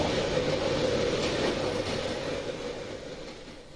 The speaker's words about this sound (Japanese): おお、ちゃんと動いてるよ、新幹線。